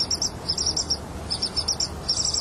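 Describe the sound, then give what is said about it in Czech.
Hoopoe chicks being fed in a nest box give thin, high, rapid chirps in three bursts separated by brief pauses, over a faint background hiss. “Na chvíli jsme za dudník schovali diktafon. Zachytil, jak dudci krmí mláďata.”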